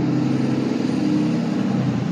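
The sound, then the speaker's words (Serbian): Steady low engine rumble from several trucks arriving at night, a droning, even noise with no clear rise or fall. “Stiže buka. U, ovdje, ovdje da bude neko raštiljenje, vidim 4-5 kamiona.”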